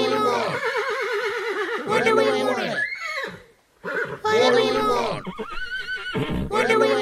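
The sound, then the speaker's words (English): Horses neigh as a comic effect in a spoof news report about striking horses on picket lines. Several loud, wavering whinnies follow one after another, broken by a brief quiet gap midway. “strike continues, with many horses outside venues and racing courses forming picket lines, holding up placards and braying violently at any horses crossing the union lines. Chief negotiator and union leader Mr. Mowgli, who's famous for winning the 440 at Doncaster, said,”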